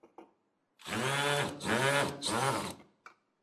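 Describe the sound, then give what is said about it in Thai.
A power drill with a Phillips bit drives self-drilling screws, its motor whining steadily in three joined pulses lasting about two seconds, with short clicks just before and after. “สว่านหัวที่เป็นหัวสกรูไลแฉกนะครับที่ใช้ในการขันสกรูไลน็อตตัวนี้นะครับเสร็จแล้วเรามาร์คเกอร์เข้าไปในตำแหน่งที่เราต้องการนะครับแล้วก็ยิงสกรูไลเข้าไป”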